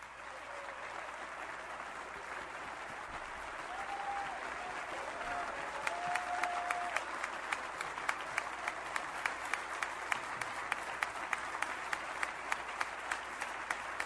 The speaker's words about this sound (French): je pense qu'on a le droit d'applaudir dans une église pour un Dieu qui est vivant. On a le droit de donner une ovation debout